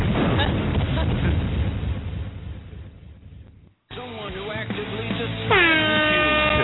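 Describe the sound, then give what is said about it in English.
An air horn sound effect blares in near the end, loud and sustained. It follows a stretch of noisy clamor and a brief silent gap. “Just mash your buttons and hit all the sound effects at once. Jesus. The horn.”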